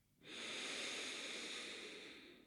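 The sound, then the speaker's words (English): One long, deep exhale through an open mouth, a soft airy hiss that starts abruptly and holds steady before slowly fading, quiet and alone with no talk. “Full breath in through the nose. Open the mouth. Exhale.”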